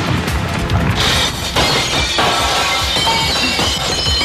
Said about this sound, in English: They always told me the window in here was shatterproof.